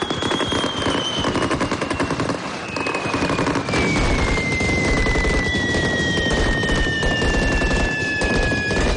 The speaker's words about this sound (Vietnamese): Các sĩ quan đặc nhiệm nổ súng tiêu diệt nhóm khủng bố và che chắn cho xe buýt.